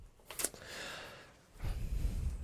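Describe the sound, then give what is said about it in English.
A person takes a quiet, audible breath: a short sharp intake followed by a longer, soft breathy rush of air. “I'm sorry. Just taking a breath.”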